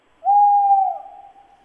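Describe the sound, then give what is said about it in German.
Tawny owl hooting: one long, steady tonal hoot that wavers slightly, then drops into a quieter, trailing tail that fades out alone. “Ein neues Geräusch. Das würde mir nachts im Wald einen Schauer über den Rücken schicken. Der Waldkauz.”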